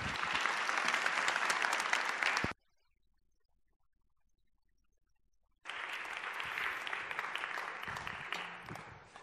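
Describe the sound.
Warm audience applause welcomes a pastor invited as a guest speaker: dense, steady clapping in two loud bursts separated by a few seconds of near silence.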